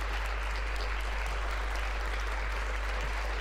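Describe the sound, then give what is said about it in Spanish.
Applause sound effect: a dense, steady wash of many hands clapping with no breaks, even in loudness from start to finish and with no voices over it. “Bueno, un momento, aplauso.”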